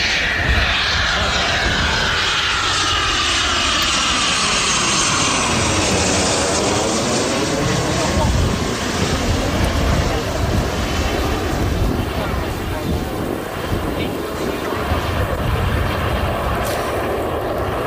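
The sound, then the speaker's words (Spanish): Roar of a Eurofighter combat jet flying during training for an air festival in Gijón, a loud, continuous engine rush with a sweeping pitch shift as it passes, sustained for the whole stretch. “Este es el sonido del Eurofighter, un avión de combate de última generación”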